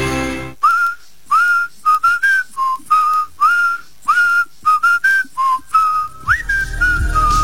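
Whistled pop song melody from an advertisement: bright, clear notes in short rhythmic phrases separated by brief gaps, fairly loud, ending on a longer sliding note over a low background sound.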